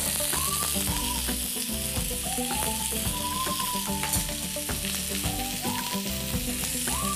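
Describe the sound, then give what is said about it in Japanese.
Enoki mushrooms sizzle in melting butter in a pan, a steady, loud frying hiss that runs without a break from start to finish. “バターが溶けかかってきたらここにえのきを入れます”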